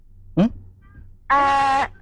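A kitten meows twice: a short high cry, then after a pause a longer, drawn-out, steady meow rich in overtones, with only faint background noise between them.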